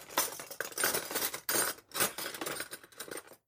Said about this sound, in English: That's the sound of cutlery. Spoons, knives and forks.